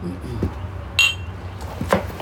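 Glasses of barrel proof rye clinking together in a toast, a couple of sharp bright clinks about a second apart over a low background murmur.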